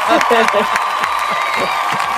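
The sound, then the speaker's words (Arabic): Applause sound effect: dense, steady clapping mixed with crowd cheering and whoops. Excited voices shout over it at the start, and the clapping holds at a loud level throughout. “لحظة أشغل الإفكت صفقة.”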